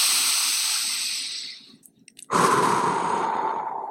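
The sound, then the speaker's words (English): A single deep, cleansing breath: a long, airy inhale that tapers off into a brief pause, followed by a louder, breathy exhale that holds steady to the end. “Gently open your eyes. One more cleansing deep breath.”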